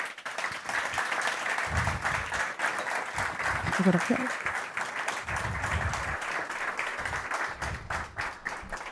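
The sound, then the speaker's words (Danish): Audience applause for an award winner, the director of Banegården, as he receives a prize. Dense, steady clapping fills the whole clip while voices talk over it. “Og så skal jeg give en rigtig stor hånd til Carl Johan Poulsen, som er direktør for Banegården.”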